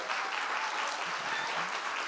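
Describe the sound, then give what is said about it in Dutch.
Applause from an audience in a club hall welcoming guests onstage, a soft, even wash of many clapping hands that continues without a break. “Ja, applaus.”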